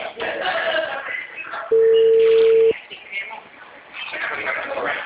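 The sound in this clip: A telephone rings with an incoming call, sounding as one steady electronic tone about a second long between stretches of people talking.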